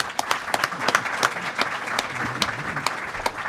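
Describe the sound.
Applause welcomes a speaker at a literary conference. Individual sharp hand claps stand out distinctly in an irregular pattern against a lighter background patter of clapping, at a fairly loud and uneven level throughout.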